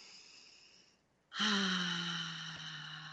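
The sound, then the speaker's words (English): A group takes a deep collective breath, heard as one loud, voiced exhale that swells in about a third of the way through and slowly fades over a steady tonal background. “everyone take a deep collective breath.”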